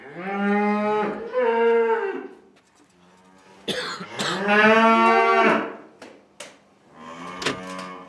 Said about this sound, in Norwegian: Få ut de kuene. Det kommer gjester her.